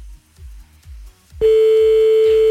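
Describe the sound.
A steady telephone tone sounds as a call is placed. It starts loud about halfway through after a quieter lead-in and holds one fixed pitch to the end.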